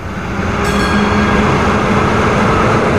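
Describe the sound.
A passing train from Arica makes a loud, continuous rolling roar of wheels and carriages. It holds steady and even from start to finish, with no voices over it.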